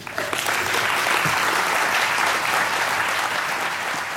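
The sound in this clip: Audience applause welcoming a speaker at a university event: steady, dense clapping that holds at an even loudness for about four seconds, with no talking over it.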